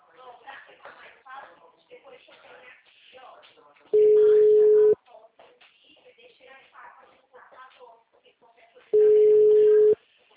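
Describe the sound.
A telephone call rings out: two steady, mid-pitched one-second ringing tones, several seconds apart, with people talking continuously throughout.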